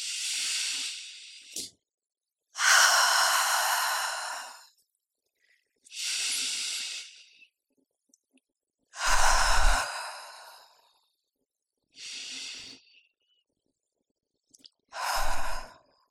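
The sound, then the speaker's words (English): Deep breaths drawn in through the nose and let out through the mouth during a guided breathing exercise: six long, airy, hissing breaths separated by short silent pauses, with no talking. “Let's kick things off with some deep breaths. In through your nose, out through your nose or mouth, dealer's choice.”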